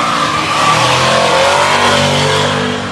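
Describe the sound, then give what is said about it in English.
An all-wheel-drive GTR accelerating at a drag racing event gives a loud, sustained engine roar that holds steady and strong throughout. “they just ran a GTR. That thing scoots, man. That thing is quick. That all-wheel drive”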